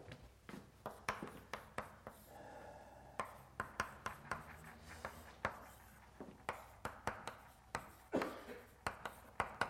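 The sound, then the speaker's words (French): Handwriting of a simplified Chinese character, heard as many quick, scratchy strokes in an uneven rhythm. The strokes are fairly faint, with no voices over them. “Je l'écris là, ce caractère simplifié, ça va plus vite.”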